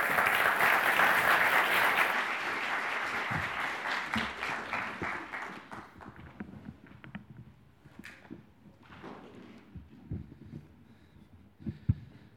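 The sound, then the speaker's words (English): Audience applauding to welcome a speaker. Loud, dense clapping gradually thins and fades over several seconds, leaving scattered claps and a few sharp knocks near the end. “why don't you guys put your hands together and give a warm welcome to Andrew.”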